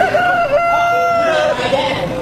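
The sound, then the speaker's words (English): Rooster crowing in a crowing contest at the Missouri State Fair: one long, loud, sustained harmonic crow that holds a steady pitch before it fades out. “And don't miss the rooster crowing contest. Here's one of the contestants.”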